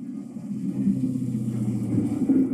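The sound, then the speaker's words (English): Cars passing by outside, a low continuous rumble of road traffic that swells slightly toward the end. “cars passing by. God damn it.”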